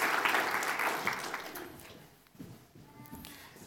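Audience applause welcoming a newly married missionary couple from Russia, with dense clapping that is loudest at the start and then fades away.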